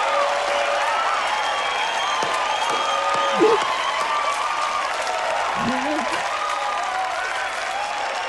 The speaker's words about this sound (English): Big Ray sits open-mouthed and Sergio sobs as he claps.